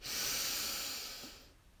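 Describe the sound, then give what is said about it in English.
A single long, steady breath during a guided breathing exercise, an airy hiss that holds for over a second before fading away, heard alone with no talk. “So let's breathe in, breathe in, and out.”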